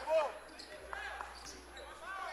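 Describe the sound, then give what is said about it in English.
A basketball is dribbled on a court during a college men's game, Mineral Area vs West Point. There are a few sharp bounces over crowd murmur, and voices are heard in the background. “Prola sets up the offense. To the near wing, Prola with the dribble through a screen.”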